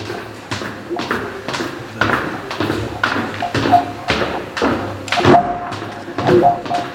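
Footsteps go down many stairs into a deep, hidden crypt. They form an evenly paced series of tapping thuds, each step a dull knock, and continue steadily throughout.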